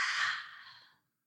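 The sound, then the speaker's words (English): A single deep exhale during a guided breathing exercise: one soft, airy breath out that fades away over about a second, then silence. “And a deep breath in. And exhale out.”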